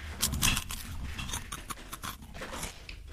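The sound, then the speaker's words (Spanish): Crunching of Tostitos-style tortilla chips being chewed: many crisp, brittle crunches in a quick irregular rhythm, fairly quiet and with no other sound. “Yo estoy comiendo tostis. Pero... estoy comiendo unas tostis.”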